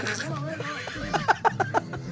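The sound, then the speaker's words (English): A big horse neighing, a fairly faint wavering whinny that breaks into a few short pulsing bursts near the end. “It's not a pony. It's a big rapey horse.”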